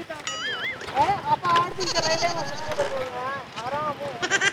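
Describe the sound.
Sheep bleat repeatedly in quavering, wavering cries, several of them overlapping one another, with people talking among the bleats.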